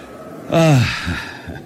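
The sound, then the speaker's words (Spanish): A man breathing deeply in pure mountain air during yoga gives one loud, voiced exhaling sigh that falls in pitch, followed by fainter breaths. “El aire puro de estas montañas acentúa la respiración profunda del yoga. Mis pulmones se llenan de oxígeno.”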